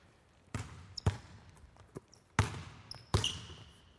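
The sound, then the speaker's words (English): A basketball banging off a backboard during underhand shooting drills, several sharp, hollow thuds at uneven intervals, with quieter knocks between them. “Underhand, and again, just getting our touch, feeling the ball, feeling different angles of the backboard.”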